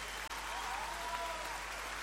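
Faint applause rises for a valued guest, a soft, steady hiss of many hands clapping that stays level except for one momentary dropout near the start.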